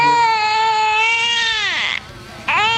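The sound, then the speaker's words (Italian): A baby girl screams in a long, high, strained wail that bends downward, breaks off briefly into near-silence, then starts up again loudly. “Ma questa è la figlia che strilla? Che ha il singhiozzo?”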